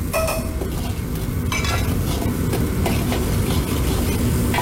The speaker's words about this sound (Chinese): 底料炒化之后下入剁好的豆瓣酱炒香，然后下入剁好的姜蒜末一起爆香